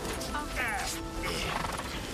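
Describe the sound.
A horse tangled in its reins gives a short, shaky whinny with wavering pitch, heard amid a noisy background with people talking.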